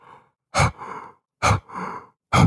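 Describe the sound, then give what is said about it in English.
An elk hunter huffing heavy breaths through a bugle tube as an elk call: three loud, sharp huffs, each followed by a softer drawn-out breath, in a steady rhythm. “Another sound that I make that's not even a bugle is through the bugle tube, huffing and breathing really heavy. Almost think of it like a snort wheeze with a whitetail”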